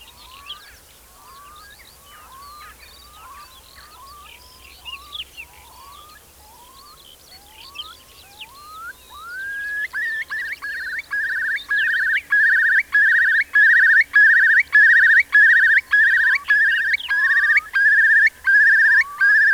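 Eurasian curlew calling over fields: a string of rising whistled notes, then a loud, rapid bubbling trill of repeated pulses that swells and carries on to the end.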